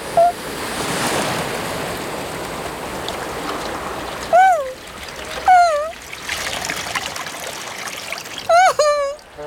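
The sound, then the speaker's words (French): Ocean waves splash and wash steadily in continuous surf noise, and a few short, high, wavering vocal cries rise above the water at intervals. “Ouh ! Attention, tout doux. Ouh ! Voilà une grosse vague.”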